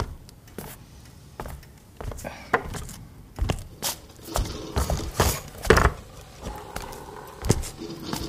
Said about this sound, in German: Wir gehen in die Küche. Das ist am hellsten.